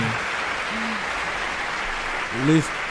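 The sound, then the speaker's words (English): Audience applause greets a guest being welcomed onto a show, a steady, dense wash of clapping that runs throughout, with voices speaking over it near the start and end. “Let me give him a round of applause. Come on. There it is.”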